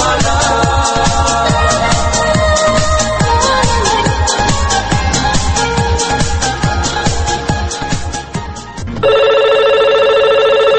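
A telephone rings for a call-in to a radio show: rhythmic music plays first, then a steady electronic ring sounds loudly at the end.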